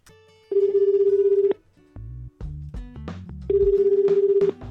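A telephone rings for an incoming call, two trilling bursts with short, stepped electronic tones between them, loud and clear with no talk.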